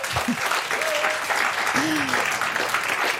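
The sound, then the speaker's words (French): Live audience applauding at the Le Livre sur les quais book festival in Morges: steady, dense clapping with a voice briefly heard over it. “On est en direct du livre sur les quais à Morges. Si, si, je vous assure, entendez le public.”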